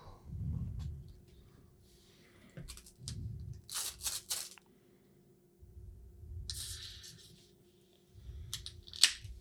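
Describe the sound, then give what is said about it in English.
Stickers being peeled from their backing and placed, heard as faint, crisp tearing bursts: a few quick strips in the middle and a longer one later. Soft, low handling thumps fall between them. “Placing stickers.”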